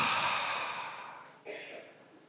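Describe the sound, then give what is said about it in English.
A group breathing together on cue, a long, airy breath of moving air that slowly fades, then a second breath that begins sharply and carries on to the end, with no talking. “Can we all breathe in? Hold it. And out.”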